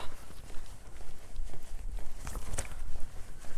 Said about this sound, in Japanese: 新しい道歩いてるわ